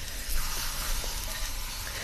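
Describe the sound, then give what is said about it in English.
Sugar-coated food sizzling on a hot grill just after being flipped, with the coating of boiling sugar crackling in a steady, even hiss that stays quiet and unbroken throughout. “Okay, one more flip so we get a nice grill mark on the cut side.”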